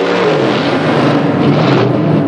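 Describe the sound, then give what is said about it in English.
A car engine revs beside another car at a traffic light, a loud, steady, full-bodied roar with dense low rumble that holds throughout the short clip, with no voices. “revs his engine. The cowboy follows suit.”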